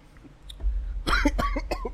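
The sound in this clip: Coughing from a person who has just inhaled smoke too deeply: a short burst of a few harsh, raspy coughs that come in quick succession after a brief quieter moment.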